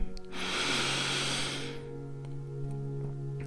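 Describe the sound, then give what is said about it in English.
A slow, deep inhale during a guided meditation for footballers: a soft, airy breath lasting about a second and a half, then quiet over a low sustained musical drone. “And as we breathe in for the fifth and final time.”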